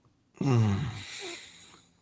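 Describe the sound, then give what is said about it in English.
A pained human groan: a single drawn-out, low voiced moan that starts strong, then trails off into a quieter breathy exhale, heard alone. “that was a pained groan.”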